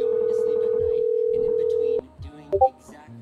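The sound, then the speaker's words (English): Discord message notification beeps: short electronic blips sound after a long, steady, unbroken tone, followed by brief quiet gaps. “Somebody's got message beeps on in Discord.”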